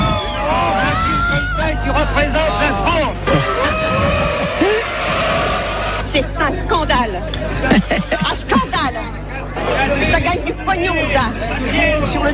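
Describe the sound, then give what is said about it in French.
Agitated audience chatter as spectators leave a 1973 film screening. Loud overlapping voices form a dense, continuous hubbub, with individual exclamations rising out of the crowd noise throughout. “à la sortie de la projection de La Grande Bouffe de Ferreri, un long métrage où 4 hommes se suicident en mangeant et en copulant. Le film fait grand bruit. Réaction nerveuse des spectateurs.”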